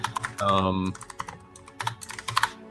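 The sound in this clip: Typing on a computer keyboard, with many uneven, crisp key clicks in bursts and short pauses. A brief voiced hum comes early on.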